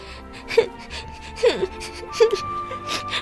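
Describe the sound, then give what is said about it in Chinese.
A little girl cries by the roadside in three high, wavering whimpers spaced about a second apart, one sliding downward in pitch, over low background noise. “小朋友，你为什么坐在这儿哭啊？”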